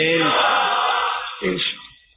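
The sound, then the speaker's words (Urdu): A crowd at a religious gathering chanting slogans against backbiting and Satan: loud massed voices shout in a long sustained cry, then a shorter burst follows before fading. “اب نعرے لگائیے غیبت کے خلاف غیبت کے خلاف جنگ جاری رہے گی انشاءاللہ، شیطان کے خلاف جنگ جاری رہے گی”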